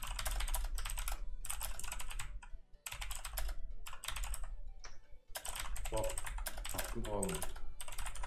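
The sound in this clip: Someone types a message on a computer keyboard: bursts of rapid, crisp key clicks broken by short pauses, fairly quiet, with a brief voice murmuring underneath near the end.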